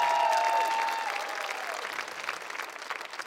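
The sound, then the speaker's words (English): An audience applauds the worship band at an evening church gathering. A loud burst of clapping gradually fades over a few seconds, and a brief held tone sounds at the start. “Can we hear it for our worship band one more time?”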